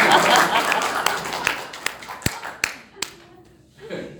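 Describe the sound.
Applause from a sermon audience, a dense burst of clapping that quickly thins into a few scattered, sharp individual claps before a voice begins at the end.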